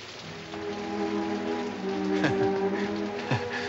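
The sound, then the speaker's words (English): Rain falling as a soft, steady patter that continues evenly through the whole stretch at low volume. “It's raining.”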